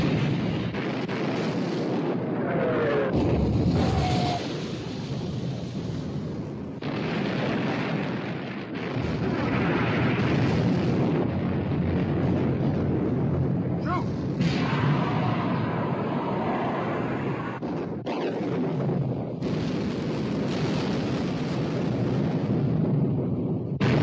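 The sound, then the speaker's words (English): Heavy naval gunfire as the battleships HMS Prince of Wales and Bismarck exchange fire, deep rumbling booms and blasts rolling over a continuous loud roar, with several sharper bursts spread across the stretch. “Hood sunk. Prince of Wales and Bismarck exchanging fire. Fire!”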